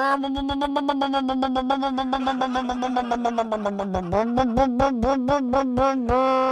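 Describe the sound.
A human voice imitates a loud motorcycle with a rapid, pulsing buzz held at a steady pitch, sagging slightly before jumping higher partway through, like a revving engine.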